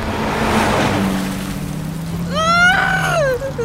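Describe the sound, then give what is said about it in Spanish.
A car driven fast gives a continuous engine roar with a low steady drone beneath it, holding at a constant loudness throughout, with a brief wavering tonal sound rising above it near the end. “Calma, estoy manejando lo más rápido posible.”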